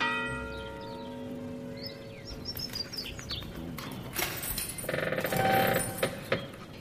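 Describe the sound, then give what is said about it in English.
A bell is rung at the gate of the Emerald City to summon the gatekeeper. Its clear tone rings out and slowly fades over the first second or so, followed by quieter, scattered sounds. “I'll ring the bell and summon the guardian of the gate.”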